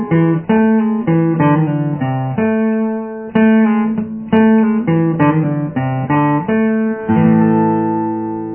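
Guitar lick transposed to play against an A chord: a quick run of plucked single notes and short double-stops, evenly loud, ending on a ringing note held for about the last second and a half.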